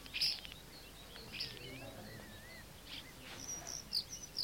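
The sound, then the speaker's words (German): Starlings chirping in a garden: faint, scattered high chirps and a few thin warbling whistles over a soft, steady hiss, with brief louder peeps near the start and end. “Die Stare zwitschern.”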